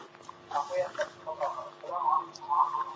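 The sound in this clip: A television plays in the background of a phone call, heard as muffled, murmuring voices through a thin, narrowband telephone line, fairly faint throughout.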